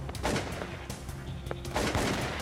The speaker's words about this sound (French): Et chaque fois qu'il faisait feu avec sa carabine, il y avait des éclats de lumière tout autour.